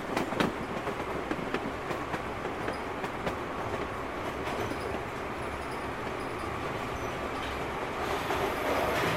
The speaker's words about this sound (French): Mesdames et messieurs, dans quelques instants, nous arrivons en gare de Saint-Georges-d'Aurac. Saint-Georges-d'Aurac. Avant de descendre, veillez à ne rien oublier vos places. Au nom de SNCF et de l'équipe Intercité, nous vous souhaitons une bonne journée.